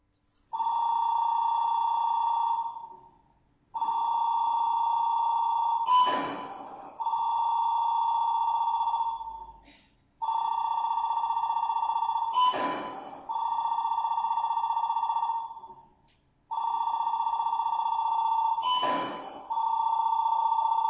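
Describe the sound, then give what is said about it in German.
A telephone rings repeatedly in a house whose occupants are out, each ring a long, steady electronic tone, with a sharp clattering click recurring after every few rings. “Simon at Imogen's house. They are both out. The answer machine.”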